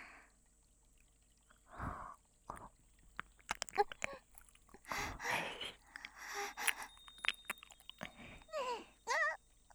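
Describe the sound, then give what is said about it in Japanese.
Close biting and chewing sounds, with soft crunches and wet clicks in irregular bursts, quiet and uneven, some spaced apart and others clustered together. “私 今度は噛んであげる。”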